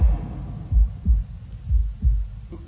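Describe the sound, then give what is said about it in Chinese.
Heartbeat sound effect for a nervous character's racing heart: deep, low, paired thumps in a lub-dub rhythm, a few double beats in a row, moderately loud with no voices. “我而家个心跳得越嚟越快添啊”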